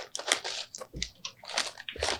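Someone eats crunchy food, with close, crisp bites and moist chewing repeating in quick, irregular bursts.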